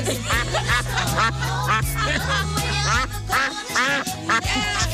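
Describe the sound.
A duck quacks again and again, in many short, nasal, rapid bursts, over a bass-heavy metal music track.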